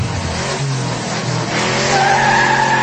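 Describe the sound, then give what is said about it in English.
Car tyres screeching as the car pulls out of a parking lot: a loud, harsh squeal over engine roar, with a sharper high-pitched whine strengthening in the second half. “That's the sound of Touch leaving the parking lot.”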